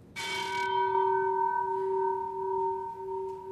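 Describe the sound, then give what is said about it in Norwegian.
The ship's bell of the old Hurtigruten coastal ship Finnmarken, hanging in a museum foyer, is struck once, its bright metallic ring sustaining in clear, steady tones and slowly decaying over several seconds. “Er det en ekte skipsklokke du har her også? Ja, det her er klokka til gamle Finnmarken.”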